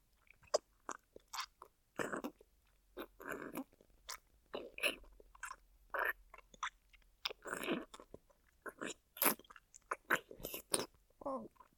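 Food is bitten and chewed in many crisp, crunchy bursts that come in an irregular, steady rhythm, each one sharp and short, with quiet gaps between them and no talking.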